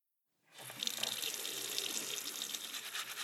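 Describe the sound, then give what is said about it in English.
Tap water runs into a sink while hands are washed: a steady hiss starts abruptly and continues alone. “I'm just taking a minute to wash my hands before we begin the show this week.”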